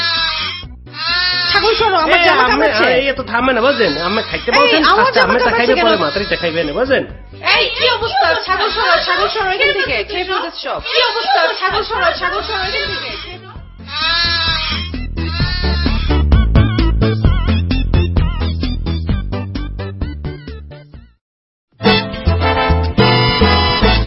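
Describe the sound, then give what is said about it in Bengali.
Goat bleating while it nibbles at someone's clothes, its cries mixed into steady, loud human talk that continues throughout. “এই আমার জামা কামড়াচ্ছে কেন? তোমার ছাগল সরো, আমার জামা কামড়াচ্ছে।”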